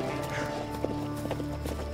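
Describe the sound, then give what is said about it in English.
Horse hooves clip-clop in a few light, uneven knocks over a low steady hum, the hoof strikes soft and spaced irregularly. “All right, well then get your ass on this horse.”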